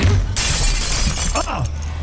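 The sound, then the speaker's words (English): A plate glass window shatters as a man is thrown into it during a fight, a sudden loud crash followed by a sustained spray of breaking, tinkling glass that carries on to the end. “The woman spins and uses the CIA man's momentum to send him sprawling into a plate glass window.”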